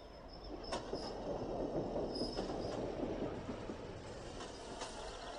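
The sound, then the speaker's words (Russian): A suburban electric train arrives and stops at a station, giving a steady rolling rumble broken by a few brief, sharp wheel or brake squeals. “Электричка останавливается.”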